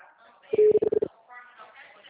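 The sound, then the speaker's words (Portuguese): Telephone keypad tones sound as a call is dialed: a quick run of several short, clear beeps, with a voice talking before and after. “Aí agora tentando ligar, tá indo pra caixa postal direto.”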